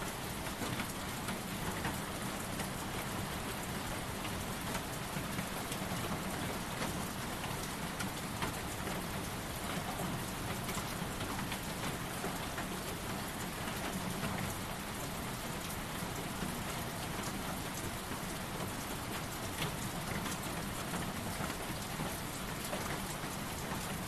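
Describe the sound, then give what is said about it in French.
Steady rain falls in a continuous, even hiss of drops, faint and unbroken throughout, with no voices. “le tonnerre et moi, jusqu'à ce que seulement la pluie, le tonnerre demeure.”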